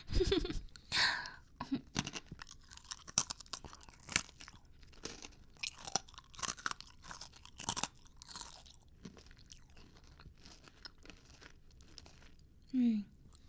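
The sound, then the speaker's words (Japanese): Crunching and chewing of snacks, with many soft, irregular crisp crunches and bites spread across the stretch, all faint, and a brief voice near the end. “おいしい。やっぱりお腹空いてる時のお菓子ってなんでおいしいんだろう、こんなに。”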